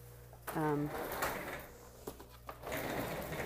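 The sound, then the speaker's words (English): A plastic high chair is put back together, with its tray brought over from the table. A brief squeak is followed by a few sharp clicks and knocks and some soft rustling clatter. “putting the high chair back together because the tray was on the table”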